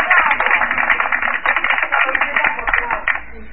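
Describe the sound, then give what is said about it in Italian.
Applause played for a policeman, a dense, continuous patter of many hands clapping that holds steady for the whole few seconds and thins slightly at the very end. “Questo è il nostro applauso al poliziotto che ha ammazzato un paio di persone.”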